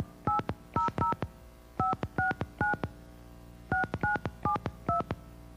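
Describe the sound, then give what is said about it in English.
Ten touch-tone beeps of a telephone number being dialed, each a short clean dual-tone chirp, spaced in groups of three, three and four, loud and alone without any voices. “Oops, I misdialed, I'm sorry. It happens. All right, let's try again.”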